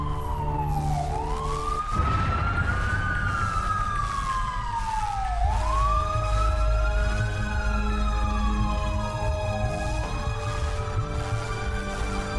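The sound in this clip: An ambulance siren wails in slow, repeating rising and falling sweeps. It stays loud and steady over a constant low rumble, with no talk.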